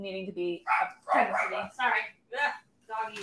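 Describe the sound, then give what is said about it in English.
A dog barking loudly in a quick run of several short, sharp barks with brief gaps between them, with human speech mixed in among the barks. “Sorry. Doggy. So loud.”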